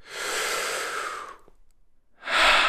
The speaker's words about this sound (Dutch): Haal nog eens even diep adem samen met me.